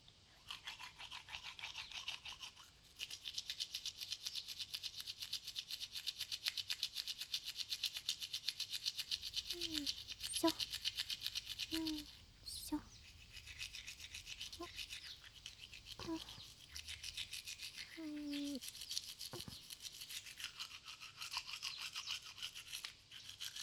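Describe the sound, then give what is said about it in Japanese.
Toothbrush scrubbing the canines and front teeth with the brush held vertically: a brisk, continuous bristly rasping that starts after a quieter first few seconds and runs steadily to the end, with a brief dip partway through. “糸切り歯と前歯は歯ブラシを縦に向けてゴシゴシしていくよ。”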